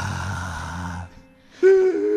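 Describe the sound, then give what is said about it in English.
Ragged, wheezing human breath: a raspy, noisy exhale of about a second, a brief near-silent gap, then a harsher, strained voiced wheeze. “Take a moment just to be one with your own breath. Your own ragged breath.”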